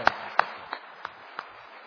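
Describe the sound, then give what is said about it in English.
A few isolated hand claps from a Baptist church audience, sharp and evenly spaced, each one fainter than the last. “So, Brother, let's give him one more round of applause.”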